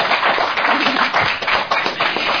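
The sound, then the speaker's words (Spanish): Applause honoring a harpist, a steady patter of many hands clapping with a muffled, dull tone and no voices heard over it. “Un aplauso realmente para Jennifer.”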